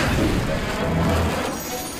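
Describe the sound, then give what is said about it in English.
Dragon fire blasting against a sword in a fantasy battle: a loud, sustained roaring rumble and whoosh that holds for about a second and then slowly eases off. “Even Dragonfire can't destroy that sword!”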